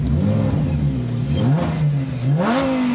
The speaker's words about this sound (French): Écoutez ça! C'est addictif! Ça n'a rien à voir avec une McLaren Turbo ou les Ferrari V8. Là, on est un vrai V10.